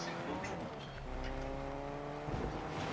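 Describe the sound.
A car engine drones steadily as a vehicle is driven in a shooter video game. The low, harmonic hum holds an even level with a brief shift in tone near the end.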